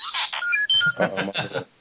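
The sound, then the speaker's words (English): A mobile phone ringtone, from a white iPhone in a white Mophie case, plays as a tinny, band-limited melodic tone in several short bursts. “Is that your phone? You know, be like, yeah, that's my phone, my ringtone.”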